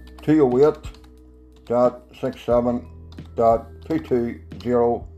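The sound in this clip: A computer keyboard is typed on while DNS server numbers are entered: faint scattered key clicks sit under steady talk.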